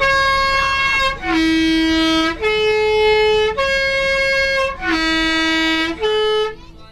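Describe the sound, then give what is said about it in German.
Loud multi-tone vehicle horn honked before a tight curve on a narrow road above the Tamina gorge: six sustained, bright notes alternating between different pitches, sounding clearly on their own. “drückt vor der nächsten engen Kurve zünftig aufs Horn”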